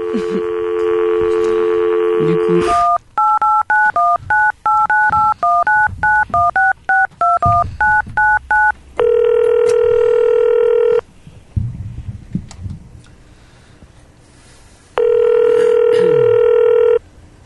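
Telephone tones in a video game: a steady dial tone, then a rapid run of many keypad beeps, followed by two long, loud ringing tones separated by a pause.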